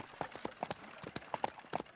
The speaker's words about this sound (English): Oh, slow, horses, slow down. Seems I'm not in control anymore.